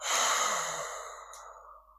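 A single quick exhale during a guided breathing exercise, a breathy rush that starts strong and gradually fades away over about two seconds.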